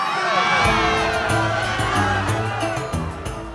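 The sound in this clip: A crowd of partying gods cheers, whoops and shouts loudly and continuously, many voices overlapping into a dense roar throughout.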